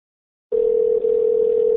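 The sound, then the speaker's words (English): A telephone dial tone heard when placing a call: after a short silence, a steady, single-pitched continuous tone begins and holds evenly with only a momentary dip. “Let's give him a call.”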